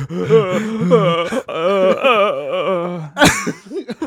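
A person lets out a long, wavering, strained yell imitating retching, pushing out all their breath, then ends with a short breathy gasp.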